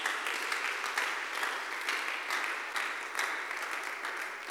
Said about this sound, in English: Clap your hands and pray.